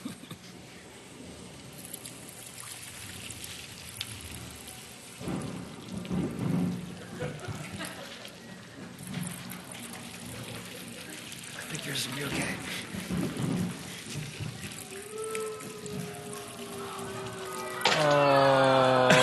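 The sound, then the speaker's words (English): Rain patters steadily while low thunder rumbles roll underneath, mostly soft, with a louder burst of sound near the end. “So we're going to do a little testing here to see how things hold up with a little bit of rain.”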